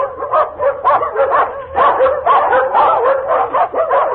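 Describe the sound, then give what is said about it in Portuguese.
A pack of hunting dogs barks in the distance, a dense, continuous chorus of overlapping barks and yelps that swells and dips in a loose, uneven rhythm without pause. “Dali a instantes, ouviu-se ao longe os latidos da matilha que vinha de corrida feita.”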